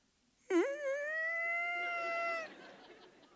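A young child cries in a single high, sustained wail lasting about two seconds. The cry wavers briefly at its onset, then holds a steady pitch before fading into quieter sobbing.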